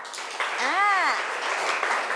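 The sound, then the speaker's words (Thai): Applause for all five student groups after their presentations: a sustained patter of many hands clapping, steady in loudness, with a brief voice sounding midway through. “ขอปรบมือเป็นกำลังใจให้กับทุกกลุ่มค่ะ”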